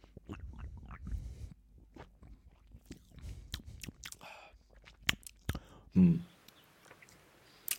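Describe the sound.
Someone chews a pomegranate-flavoured treat in quiet, close crunching bites, with many irregular crisp crunches, mouth clicks and soft smacking sounds and a louder bite near the end.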